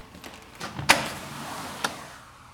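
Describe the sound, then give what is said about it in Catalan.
A door being opened at home: a quiet sharp latch click, then a second fainter click about a second later, alone over faint background noise. “en Marlí deixa una copa a la taula i va per obrir.”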